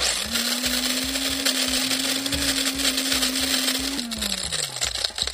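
A grinder used to draw a weekly quiz winner whirs with a steady motor hum over irregular rattling and clattering. Near the end, its tone drops and winds down.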